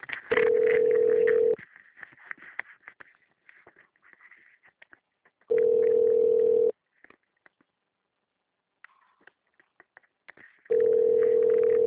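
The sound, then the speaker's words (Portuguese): Telephone ringback tone plays while a call to Agibank is being transferred: three long, steady, even-pitched tone bursts separated by pauses, with faint background sound in the gaps. “Aguarde um instante enquanto sua ligação está sendo transferida para um de nossos atendentes.”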